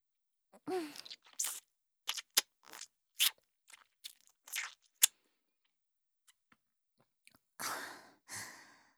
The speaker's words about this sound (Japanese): 一滴残らず吸い上げて、よーく噛んで飲み込むところ、たっぷりご覧くださいませ。